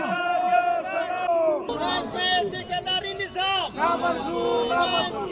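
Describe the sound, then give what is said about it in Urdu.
Mine workers at a labour federation protest in Pakistan chant slogans: loud massed voices in rhythmic, repeated call-and-response phrases, with short breaks between bursts. “Pakistan central mines labour federation کے زیر اہتمام ہونے والے مظاہرے کے شرکا اپنے مطالبات کے حق میں نعرے بازی کرتے رہے.”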